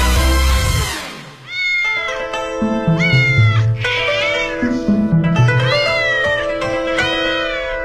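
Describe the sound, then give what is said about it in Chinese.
Cats of Beijing's Forbidden City meow repeatedly in wavering, drawn-out cries over steady sustained tonal backing, the calls rising and falling in pitch and staying loud throughout. “今天的《风从哪里来》，想跟您聊聊最近特别火的网红故宫里的猫”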